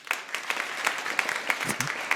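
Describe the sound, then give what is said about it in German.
A live audience at a German quiz-style show gives light applause: scattered individual claps pop out of a modest, uneven patter of hands that stays at a steady, moderate level. “Und dann als nächste Frage von Sarah, die gefragt hat, ob diese Frage 100 Likes wert ist. Euer Applaus.”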